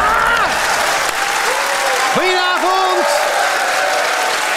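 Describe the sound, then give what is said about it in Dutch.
A television studio audience claps steadily, the dense clapping holding at a loud, even level throughout while a few sustained gliding tones rise, hold and fall over it. “nou mensen, klappen, klappen, klappen, ga maar even mm. staan.”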